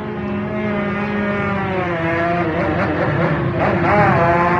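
Honda racing motorcycle engine firing up, the Railway Inn Honda of a classic lightweight Manx Grand Prix winner on the Isle of Man, with a steady buzzing harmonic drone that wavers and rises slightly in pitch toward the end.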